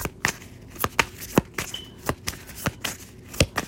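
Tarot cards being shuffled and drawn during a reading give many crisp, papery snaps that recur at a quick, slightly irregular pace, with no talking.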